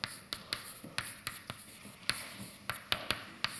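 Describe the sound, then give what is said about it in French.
Chalk writing on a blackboard during a physics lecture: many faint, sharp taps and short scratchy strokes in an irregular rhythm, each a quick tick of chalk against the board, with no talk over them. “Je vais écrire en anglais au tableau.”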